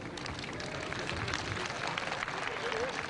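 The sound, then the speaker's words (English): Pilgrims applaud as the Pope passes through an open-air gathering on a plain. The clapping is a steady, fairly quiet rain of many hands, with a faint crowd murmur beneath it. “As the Pope made his way through the clapping crowd,”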